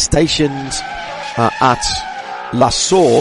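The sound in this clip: Race car engines from televised restart highlights of the Spa 24-hour endurance race, a steady high engine whine with brief tire noise running beneath prominent talking.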